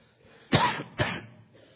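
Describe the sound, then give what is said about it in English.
Two harsh coughs from a man suffering a bad cough, the first one stronger and longer, the second following about half a second later, both loud with no talking. “As you can tell, I have a bad, bad cough.”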